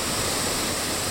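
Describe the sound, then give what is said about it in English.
Water rushes through three open spillway gates at the Ballard Locks, throwing up heavy spray. It makes a steady, dense, hissing roar with no breaks, loud and unvarying throughout. “This is the sound of water rushing through the spillway gates at the Ballard Locks.”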